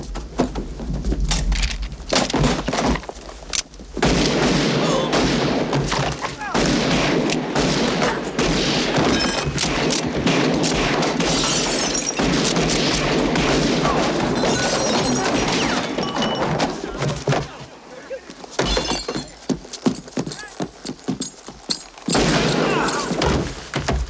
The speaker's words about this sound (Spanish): Cuando la dispare, sacad vuestro revólver y matadle como el perro sarnoso que es. ¡Disparad a ese cabrón!